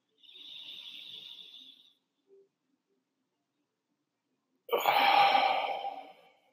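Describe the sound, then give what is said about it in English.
Exaggerated diaphragmatic breathing exercise: a long, thin, hissy inhale, a short pause with a tiny click, then a louder, fuller exhale through the mouth that fades out, both fairly faint with no talking. “I kind of exaggerated my breath”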